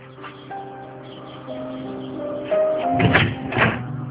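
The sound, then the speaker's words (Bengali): A couple of knocks on a door sound as dull thumps near the end, over a steady tonal, music-like background hum. “আরে কেউ নেই, দরজায় ঢুকা দিল কে? আবার কে? কি আশ্চর্য, কে ওখানে?”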